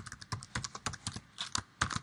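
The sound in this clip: Fingers type a password for a database server administrator account on a computer keyboard, producing many quick, irregular, fairly quiet key clicks in steady succession with no talking.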